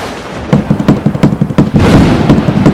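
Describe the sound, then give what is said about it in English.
Banging on a table: many heavy, loud thumps struck in a fast, uneven rhythm, each a booming hit with no talking between them. “You're gonna break the table. It's my fucking table.”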